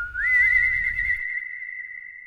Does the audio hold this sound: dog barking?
no